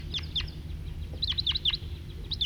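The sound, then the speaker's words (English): A flock of about ten wild birds calls, giving short bursts of sharp, high chirps repeated over a low, steady rumble. “Here comes a big flock, about 10.”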